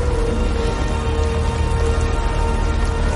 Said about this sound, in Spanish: La lluvia cae sobre los hombres.